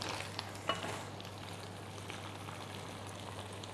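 Chili and basil stir-frying in a pan, a faint, steady sizzle with light stirring noise and one brief clink near the start.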